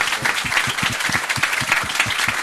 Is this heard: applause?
yes